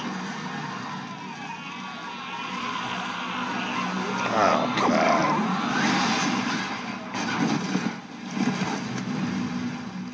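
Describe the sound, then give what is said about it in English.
A car engine starts in a film scene with a low, muffled rumble that swells around the middle. A few rougher bursts of engine noise follow over a steady background. “And of course, she starts the car.”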